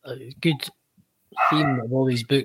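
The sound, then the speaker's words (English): A husky barks, giving a drawn-out, tonal vocal yowl between bursts of a person talking. The dog is clearly audible alongside the speech. “great to have the family dog in the background. It's brilliant. You can hear that. Is that the family dog? Can you hear the dog barking?”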